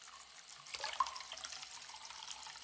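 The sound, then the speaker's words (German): Water runs from a tap into a plugged washbasin in a wash house, giving a steady, faint hissing splash with small fluctuations and no voices. “So, ein Stöpsel rein. Wasser ins Waschbecken.”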